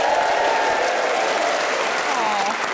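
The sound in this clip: A studio audience at a radio recording applauds, the clapping dense and continuous, steady and loud throughout, with no voices on top.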